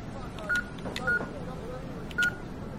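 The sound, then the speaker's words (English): Keypad tones from an ATM as a secret code is dialed: three short, clear, same-pitched beeps spaced unevenly over a steady low background hum. “Please insert your credit card. Please dial in your secret code.”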